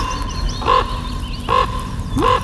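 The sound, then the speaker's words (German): A common raven gives three short, hoarse calls, evenly spaced, each a brief rough croak standing out over a faint, steady background hiss. “Ich finde ja hier die oder der Kolkrabe. Das ist ein helles Köpfchen.”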